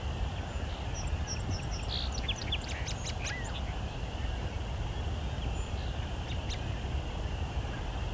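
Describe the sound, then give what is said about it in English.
Songbirds sing at dusk, an American robin and song sparrows giving their last songs of the night: faint high chirps and short trills cluster in the first few seconds over a steady low wash of background noise. “American robin and song sparrow. Lots of song sparrows. The putting out their last songs of the night.”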